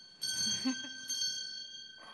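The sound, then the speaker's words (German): A handbell is rung during a live event, struck twice about a second apart, each ring a bright, high metallic tone that lingers and slowly fades. “Und damit kannst du die Glocke wieder läuten”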